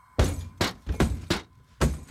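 Window glass being smashed as a house is forced open, a series of heavy crashing blows with broad, noisy breaking sounds in a quick irregular rhythm.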